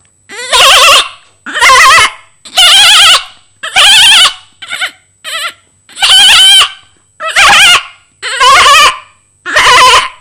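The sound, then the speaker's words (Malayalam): A human voice imitates a family of goats bleating, giving a long series of loud, quavering bleats separated by short pauses. Some calls are shorter and choppier than others. “Okay, അപ്പൊ ആടിന്റെ ഒരു കൂട്ടുകുടുംബത്തെ കൂടെ എന്നെ പരിചയപ്പെടുത്താം.”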